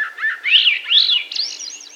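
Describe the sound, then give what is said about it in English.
Swainson's thrush song: a series of clear, flute-like whistled phrases that loop and climb upward in pitch, sung alone and fairly loud over about two seconds. “You can find more about the migratory divide of the Swainson's thrush at our website, birdnote.org.”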